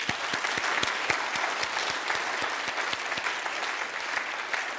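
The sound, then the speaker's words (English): A church audience applauding during a Sunday worship service: dense, steady clapping from many hands, even and continuous throughout. “why don't we at this time give a round of applause for God, to give him thanks and to give as a way of praising him for all that he's done in our lives in 2022”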